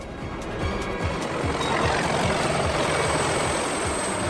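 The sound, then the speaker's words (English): Two huge overhead rotors of a hover vehicle revolve as it takes off, a steady, rhythmic low chopping thud over a broad engine roar that holds even throughout. “The two huge overhead rotors of the hover vehicle start to revolve and they take to the skies, cruising over the mountains.”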